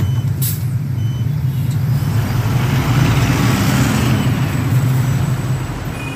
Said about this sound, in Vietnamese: Lên xe buýt rồi, anh em chúng tôi sẽ bắt xe buýt điện để hướng về khu vực bờ hồ các bạn ạ.